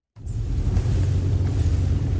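Car driving into a dark forest at night with a game warden, its engine and road rumble starting abruptly and continuing as a steady low drone with a faint high whine.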